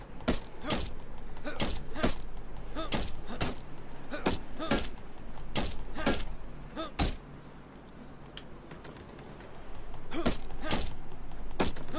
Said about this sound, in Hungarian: Na, akkor most egy picit meggyalújjuk az ajtókát.